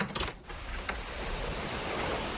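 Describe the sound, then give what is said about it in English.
Ocean waves make a broad, steady rush of surf. A few louder splashes come at the start, then the wash stays even and fairly loud, with no voices. “We have the ocean right here in a closet.”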